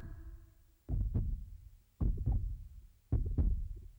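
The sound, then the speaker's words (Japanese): Heartbeat sound effect from a 1996 audio drama: three deep, thudding double beats at a steady pace, loud and alone with no talk. “あれ、なんだろう、心臓の鼓動がどんどん速くなる。”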